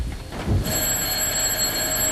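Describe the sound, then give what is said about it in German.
A telephone rings with a bright, sustained bell-like tone that starts after a short moment and keeps ringing without a break. “Gerade schon am Anfang des Stück läutet das Telefon.”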